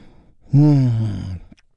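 A single deep, voiced breath taken during a guided relaxation exercise, drawn out for about a second with a gently falling, breathy tone and no talk.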